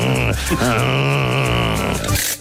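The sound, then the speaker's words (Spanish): Drawn-out creaking groan of a car handbrake being pulled, one loud, continuous strained tone lasting about two seconds before it cuts off. “Uy, eso que ha sonado, ¿qué ha sido? La carranca. He sido yo, perdón, el freno de mano, ¿eh?”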